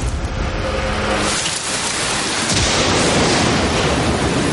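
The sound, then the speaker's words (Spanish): Heavy rain pours down at night in a loud, unbroken hiss that fills the whole stretch with a low rumble beneath, with no voices. “entonces comienza a llover”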